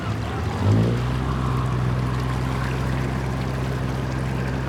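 Motor launch boat running on water: a steady low engine drone under continuous washing water noise, fairly loud and unchanging throughout.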